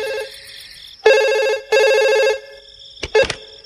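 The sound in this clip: A telephone rings with a bright, high-pitched electronic ringtone in several bursts separated by short gaps, ending in a couple of brief clipped chirps. No voices are heard.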